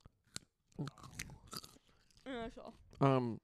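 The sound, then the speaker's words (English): A baby carrot is crunched and chewed in a few sharp, crisp bites separated by short pauses, with brief voiced sounds near the end. “Can I crunch on a carrot?”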